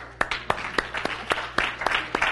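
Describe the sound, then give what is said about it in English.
An audience claps hands together in a steady beat, many sharp, evenly spaced claps ringing out fairly loud, with only faint murmuring beneath. “Or Simon Says, right? Simon Says, clap your hands.”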